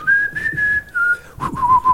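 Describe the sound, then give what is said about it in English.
Someone whistles the Simpsons theme tune as a clear, fairly loud melody of sustained notes. The notes hold steady, break briefly, then continue on a lower pitch, with faint low background noise. “But he was whistling it, so like it didn't sound perfect.”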